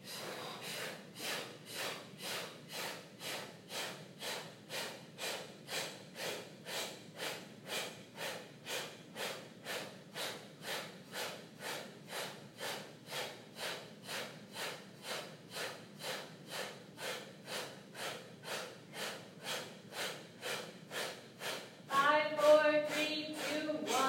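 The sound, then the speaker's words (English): Deep breathing in through the mouth during a guided breathing exercise: many quick, evenly spaced breaths in a steady rhythm, moderately loud, with no voices. “Let all the air out. Inhale, breathe in.”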